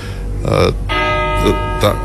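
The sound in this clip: A church bell rings in a few sustained, humming strikes that overlap and linger, with a voice speaking over them.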